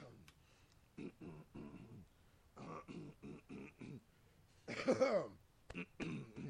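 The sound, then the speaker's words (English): Throat clearing: a rough, harsh rasp about five seconds in, louder and noisier than the short vocal sounds before and after it. “No, I'm just clearing the throat because I am gonna read this one.”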